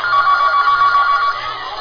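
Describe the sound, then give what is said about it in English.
A telephone rings with a loud, trilling electronic ring that pulses rapidly and steadily, then drops slightly in level near the end. “When he receives an urgent phone call from his agent.”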